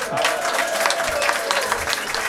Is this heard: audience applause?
yes

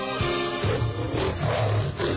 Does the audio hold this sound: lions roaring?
yes

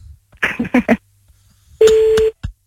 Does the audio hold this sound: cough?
no

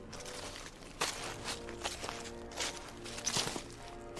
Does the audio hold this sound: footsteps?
yes

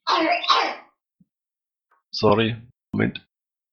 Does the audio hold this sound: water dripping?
no

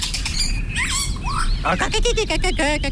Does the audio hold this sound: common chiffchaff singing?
yes

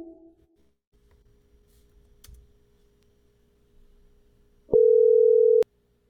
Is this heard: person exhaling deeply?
no

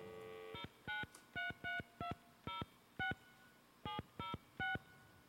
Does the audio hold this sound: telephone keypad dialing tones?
yes

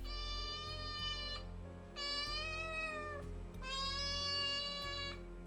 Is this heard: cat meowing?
yes

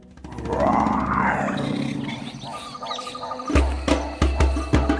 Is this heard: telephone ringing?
no

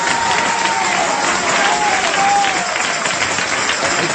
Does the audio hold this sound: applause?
yes

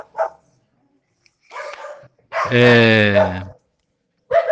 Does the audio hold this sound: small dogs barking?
yes

